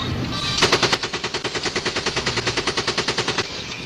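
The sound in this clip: An AK-47 assault rifle fires on full automatic in one long, rapid burst of evenly spaced cracking shots lasting about three seconds, then stops abruptly.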